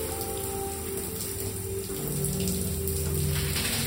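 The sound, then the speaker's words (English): A shower runs steadily, its spray making a continuous, even hiss of falling water with no breaks or voices, holding at a moderate level for the whole stretch. “When I take my shower,”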